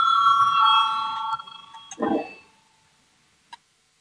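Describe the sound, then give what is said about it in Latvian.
A bell rings in a parliament chamber to call a vote, a steady bright ring lasting about a second and a half before fading. A low thump follows, then a single sharp click. “Lūdzu zvanu balsosim par 6. deputāta Kaimiņa priekšlikumu.”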